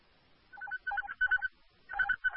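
Telephone ringing as an emergency dispatch center calls a caller back: several short bursts of warbling electronic ring tones repeat in quick, faint pulses.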